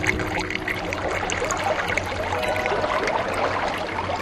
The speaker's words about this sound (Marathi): काका, नळ बंद करा ना। अरे रे, विसरलोच। तुम्हीच पाणी वाया घालवाल तर गावाचं काय?